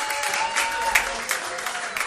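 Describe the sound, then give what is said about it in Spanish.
An audience applauds a band after a live performance: dense, steady clapping from many hands at moderate loudness that runs through the whole short clip. “¡Aplauso!”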